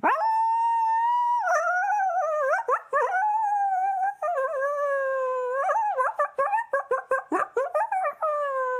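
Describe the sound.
Coyotes howl in a long, wavering, high-pitched song that bends up and down, then breaks into many quick yips and short broken calls toward the end.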